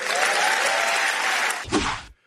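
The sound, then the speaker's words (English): Applause from an audience of about 500 at an LNP conference, a loud, dense, steady wash of clapping that carries on, swells briefly near the end, then cuts off. “There was the announcement yesterday at the LNP conference. I mean, a massive round of applause by, what, the 500 people there.”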